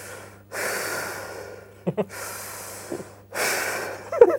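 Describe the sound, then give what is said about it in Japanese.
Heavy, rapid breathing like hyperventilation from a person steadying their breath in a staff room just before going live, heard as a few long, loud, rasping breaths with short gaps and small breathy catches between them. “アスリートみたいになってる、息整えてるっていうか、ええ、なんならもう過呼吸ぐらいの気 合入ってんなこれ。”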